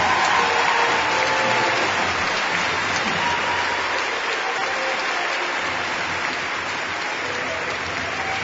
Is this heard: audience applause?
yes